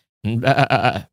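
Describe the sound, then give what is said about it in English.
A person imitates a sheep with a single loud, nasal, wavering bleat. The bleat lasts under a second, has a brief catch near its end, and is heard alone. “now, this is my interpretation of a sheep, and I should be able to do this pretty well.”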